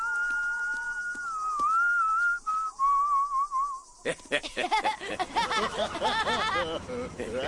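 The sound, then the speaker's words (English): Whistled Western tune of the kind played before a shootout: a single clear melody of held, slightly wavering notes, followed by people talking. “Whenever you hear that song in Westerns, it means the bad guys are about to start a shootout!”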